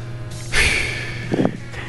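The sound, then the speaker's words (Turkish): A person takes a sharp, noisy breath, one loud rushing inhale, followed a moment later by a fainter breathy puff, with no words spoken. “Alay mı ettim Demircan abi? Nefes aldım. Nefes de mi almayayım?”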